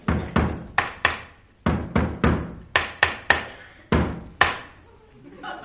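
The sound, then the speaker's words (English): Knocking on a door: twelve sharp, loud knocks in uneven clusters of two and three, each with a short decaying ring, mixed in with hammering. “I've got an echo every time I hammer. Listen. Hey, that's not an echo you caught. That's someone at the door.”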